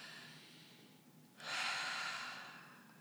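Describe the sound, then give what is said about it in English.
One deep cleansing breath, a soft, airy rush that swells suddenly partway through and then tapers off over about a second. It is faint and heard alone. “We should slow down, take a deep and cleansing breath.”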